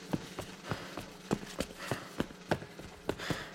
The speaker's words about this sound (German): Schnitt, außen, Nacht. Hartmann läuft noch immer hinter Kemal her.